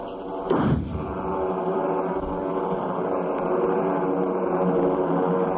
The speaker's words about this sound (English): throw me that flare gun. Yes. Here goes.